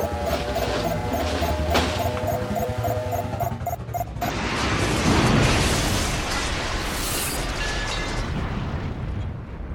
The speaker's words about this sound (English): The rocket ship hits the planet and is broken to pieces.